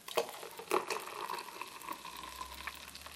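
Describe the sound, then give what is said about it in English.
Warm milk is poured with a soft, hissing bubbling that runs steadily and quietly, and a few light knocks come near the start. “And you can hear in front of me is the sound of the milk being poured, and my right ear, my right microphone, you can just hear the bubbling.”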